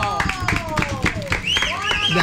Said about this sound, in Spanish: ¡Aplauso!